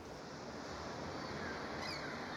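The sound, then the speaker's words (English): Ocean waves wash onto a South Florida beach in a continuous, fairly quiet rushing hiss of surf that stays even throughout, with no voices. “You are now a drop of water in the ocean's waves that are splashing onto our beaches.”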